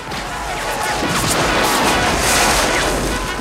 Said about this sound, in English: One after another, the soldiers fall as gunfire slams into their bodies.